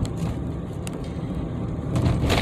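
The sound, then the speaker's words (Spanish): Road noise from inside a moving car: a steady, loud low rumble with a faint hiss, continuous for the whole stretch. “Por si escuchan algún ruido que les suene extraño, pues sí, vengo manejando.”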